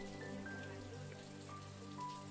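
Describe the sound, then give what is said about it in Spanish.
Light rain falls during a strong storm in Acapulco, making a faint, steady patter over a low, constant tonal hum, with no talking. “Creo que hay un poco de lluvia.”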